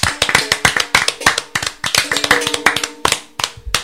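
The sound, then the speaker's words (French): Audience applause welcomes a new performer onto the stage at a music show: loud, fast hand claps at a steady, brisk pace throughout, with no voices. “Donc applaudissez très fort, Wizu Wizu”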